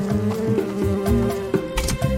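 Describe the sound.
Bees buzz around a beehive as it is gently moved with tongs onto a new tree, a dense, wavering drone of overlapping wingbeats that continues throughout.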